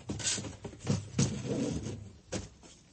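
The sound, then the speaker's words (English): A box lid is opened after the box is pulled out from under a bed: a few short, fairly faint knocking and scraping bursts with soft handling noise between them. “Open the lid.”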